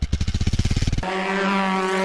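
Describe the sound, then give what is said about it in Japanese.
Motorcycle engine chugging in rapid, even low pulses for about a second, loud and rough, then giving way to a smoother sustained tone. “またしてもバイクで走り去る”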